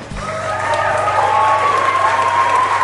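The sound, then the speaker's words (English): An audience applauds to welcome a guest speaker: a steady wash of clapping that starts abruptly and holds at an even, full level to the end. “So let's give it up for David Chappell.”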